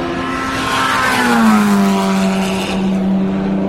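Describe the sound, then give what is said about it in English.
Loud engine roar of race cars, a Porsche 911 and a number 7 Toyota, passing at speed during a sports car race. The engine note sweeps past and drops in pitch, and no voices are heard. “That was a 911. That was a number 7 Toyota, that was, that last one.”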